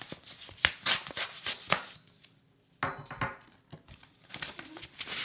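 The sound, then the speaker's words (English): A paper envelope is opened, its crisp rustling and tearing coming in quick bursts, then a short pause before more crackling. The handling is fairly faint. “I'm going to open another envelope just because I like the sound of opening the envelope. Hang on.”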